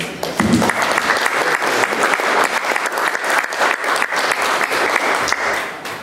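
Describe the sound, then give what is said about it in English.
Audience applause welcomes two guest speakers at a talk about comics: dense, steady clapping from many hands carries on throughout and eases slightly at the very end. “let me just start off by asking you please to welcome Brian and Mary Talbot.”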